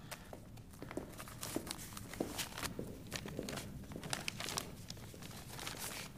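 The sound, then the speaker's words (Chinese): Paper crinkles and rips faintly as an envelope is torn open, a run of soft, irregular rustles and tearing bursts. “好了，把信封打开。”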